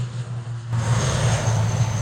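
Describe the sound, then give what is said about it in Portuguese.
An airplane takes off on an airport runway with a loud, steady roar over a deep droning hum. The roar grows slightly louder after the first moments and then holds. “Em segundos, o garoto de 10 anos chega dentro da pista do aeroporto e vê de perto a aeronave decolar.”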